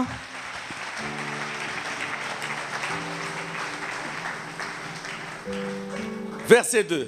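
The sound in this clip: Congregation applauding during a Sunday church worship service, with steady, dense clapping throughout over sustained keyboard chords that shift a few times.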